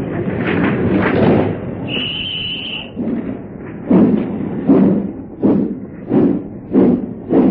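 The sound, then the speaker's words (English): A busy suburban railway station at morning rush hour, with a run of heavy carriage-door slams and thumps in an uneven sequence and a brief high whistle early on, with no voices. “Let us now take a glimpse at a busy suburban station round about 8:25 any morning.”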